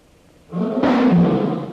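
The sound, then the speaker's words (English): A tiger roars during a hunt, a loud, low, throaty roar that starts abruptly and swells louder partway through, sustained for over a second. “Hit him! Tiger not killed. I didn't kill him.”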